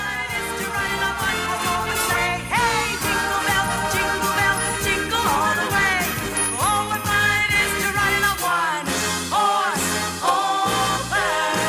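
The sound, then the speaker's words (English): A woman sings a Latin-inspired Jingle Bells on a Christmas variety show stage, riding a red, Zamboni-like motorized organ. The sung melody rides over a continuous, rhythmic accompaniment with a pulsing bass throughout. “singing a Latin-inspired version of Jingle Bells”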